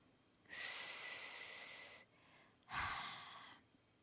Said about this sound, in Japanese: ちょっと待って、深呼吸するね。